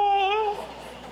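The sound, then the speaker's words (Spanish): A crying wail with a scream: one loud, tonal cry holds for about half a second, then fades into a breathy, noisy tail. “llanto con grito como ese que acaba de sonar”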